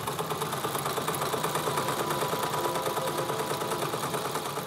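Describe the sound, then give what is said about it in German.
A sewing machine stitches lavender-filled cushions with a steady, fast, even whir that holds a rapid mechanical rhythm throughout, fairly quiet and unbroken. “Ich nähe jetzt die Lavendelkissen für die Gastgeschenke.”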